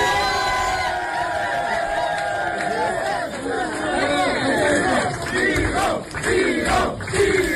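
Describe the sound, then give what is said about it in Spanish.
An audience chants the name Vigo at a ceremony where a runner-up is crowned, with loud massed voices repeating a rhythmic call over a steady crowd roar. “A ver, el público, Olga, acaba coreando el nombre de Vigo, Vigo.”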